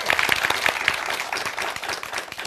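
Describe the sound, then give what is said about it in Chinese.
Warm applause from an audience welcoming a guest professor at a classical Chinese poetry recitation event. The clapping is dense and steady, with many overlapping hand claps that keep an even loudness for the whole stretch. “我们用热烈的掌声欢迎我们的活字典姚教授。”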